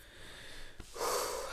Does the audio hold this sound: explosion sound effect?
no